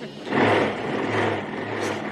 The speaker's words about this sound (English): A man revs a motorcycle.